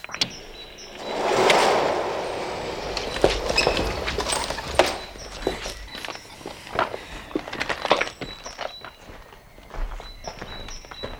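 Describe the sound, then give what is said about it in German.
A gate opens at Mr. Huntington's property with a rising rushing swell, followed by many faint clicks, clanks and shuffling footstep-like taps. “Ich öffne das Tor.”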